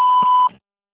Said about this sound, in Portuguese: Sua mensagem após o sinal.